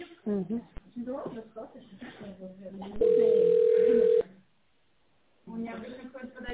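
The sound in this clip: A single steady telephone ringing tone, roughly a second long, plays while an office reception transfers a call. Telephone-quality voices talk before it, and after a brief silence the talking resumes.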